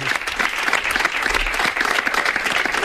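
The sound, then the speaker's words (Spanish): Loud, steady applause from an audience welcoming a guest being introduced at a Spanish radio event on New Year's Eve, a dense, even patter of clapping that holds throughout. “Un fuerte aplauso para ella.”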